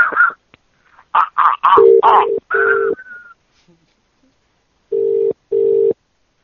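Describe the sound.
Telephone keypad tones from dialing a prank call: a short stretch of voice, then a few steady beeps in a quick group, a pause, and two more tones.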